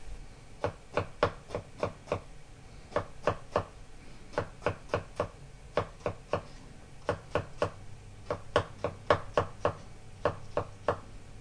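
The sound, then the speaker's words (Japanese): A knife thinly slices a lengthwise-halved mushroom, laid cut side down on a cutting board. Many quick, even taps come in short rhythmic runs with brief pauses between them, clear and alone without talk. “縦半分に切ったら切り口を下にして薄切りにします。”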